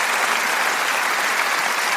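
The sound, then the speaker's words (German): Audience applause at a show, dense and steady for the whole clip, with no speech over it. “Und der Beifall zeigt ja das auch, man hat das nicht vergessen.”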